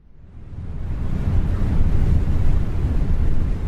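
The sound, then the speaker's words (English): Wind blowing as a broad, rushing roar that swells from quiet over the first second and then holds loud and steady, heavy in the low end. “Silence if the wind isn't blowing, but this is an audio thing, so we've got the wind blowing.”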